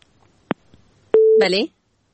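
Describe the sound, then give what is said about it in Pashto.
A telephone line tone sounds after a caller's call drops: two sharp clicks, then a single short, steady mid-pitched beep, quickly followed by a brief voice. “د دوی اړیکه پرې شوه.”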